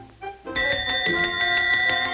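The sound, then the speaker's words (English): A small hand bell, picked up from a nightstand beside a sleeping teenager, is shaken in a rapid, bright metallic jangle of many quick strokes that continues steadily after a brief softer tone. “The maid picks up a bell from the nightstand next to the sleeping teenager.”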